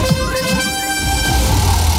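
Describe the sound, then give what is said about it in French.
A radio contest alert sounds as a loud, bright, sustained synthetic tone with stacked harmonics over a pulsing low rumble, alone and unbroken. “Dès que vous entendrez cette alerte,”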